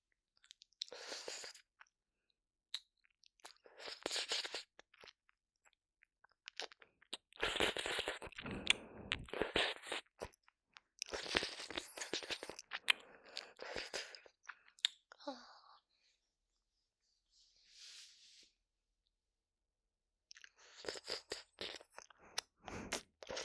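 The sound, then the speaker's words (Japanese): Wet ear licking and mouth noises, arriving in many separate bursts of smacking, crunchy sound with short silent pauses between them and no talking. “耳を舐めてあげますね。”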